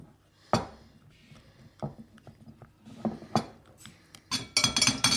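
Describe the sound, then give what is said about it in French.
A spoon clinks and scrapes against a bowl while a mixture of sugar, chocolate and egg is stirred firmly, with irregular light taps that grow busier and louder toward the end. “Et remuer le tout. Remuer le tout, oui. Fermement ou... Oui, fermement.”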